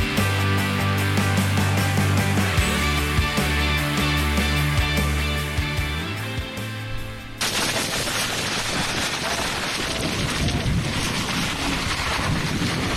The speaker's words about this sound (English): It's just 70-mile-an-hour winds in New Jersey last night at that detention center.